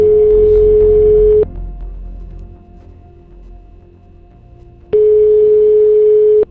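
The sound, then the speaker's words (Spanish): Telephone ringback tone heard while calling someone: two long, steady, loud tones separated by a quieter pause with a low hum. “Enseguida vais a entender Estamos llamando a Virginia, que se va a casar.”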